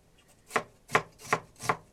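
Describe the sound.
A knife chops food, cutting in rough pieces rather than mincing. Four sharp, evenly spaced strikes, moderately loud, with quiet pauses between them and no talking.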